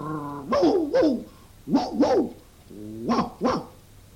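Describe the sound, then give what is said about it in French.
A dog barks six times in three quick pairs, sharp and moderately loud, with a short whine at the start. “Je pourrais faire un chien policier terrible. Je sais aboyer.”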